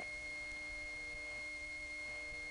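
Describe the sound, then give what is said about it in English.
Steady hum and constant tones from central office power supply noise on a North American ground start telephone line with no talk battery. The buzz is faint and unbroken, with no voices. “In some places, there are significant power supply noises from the CO, as there are here.”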